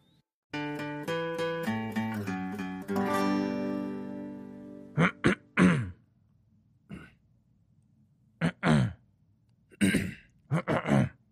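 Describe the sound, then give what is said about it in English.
Throat clearing by a person: several short, rough bursts in uneven clusters, heard alone after a brief musical passage rings out and fades. “Should have done this before we counted in. Throat clearing.”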